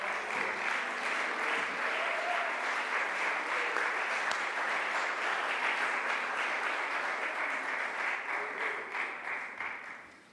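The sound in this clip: A church audience applauds to welcome a preacher to the pulpit. The clapping is dense and sustained for about ten seconds, then tapers off at the end.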